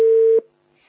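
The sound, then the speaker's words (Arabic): A telephone tone sounds as a call drops: one steady, pure beep lasting a fraction of a second, then cut off abruptly, leaving near silence with a faint trace of noise. “اتصال انقطع، معلش.”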